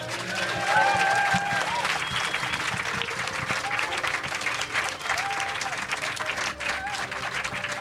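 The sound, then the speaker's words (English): Festival audience applause fills the air, a loud, sustained wash of clapping from a large crowd that holds steady from start to finish. “I want you to give a huge round of applause to our wonderful guests.”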